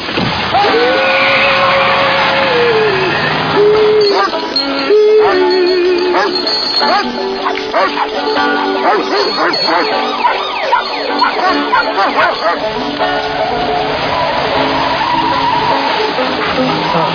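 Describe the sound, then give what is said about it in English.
A car driving fast, with loud engine noise and screeching tire skids throughout, and a wailing siren-like tone near the start. “He's driving fast.”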